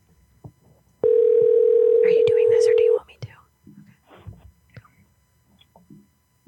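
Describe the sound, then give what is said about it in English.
A telephone tone sounds while a call is placed to a man: one long, steady, mid-pitched tone of about two seconds, with soft, whispery voices before and after it. “We shall try one more time. If it doesn't work, you can send another number. We're calling Nick right now.”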